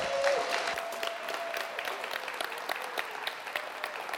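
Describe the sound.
Audience applause welcomes a speaker to the front: a steady, fairly faint wash of many hands clapping that continues evenly throughout.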